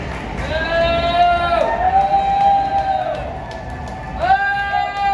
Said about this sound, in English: Yeah, they're booing now.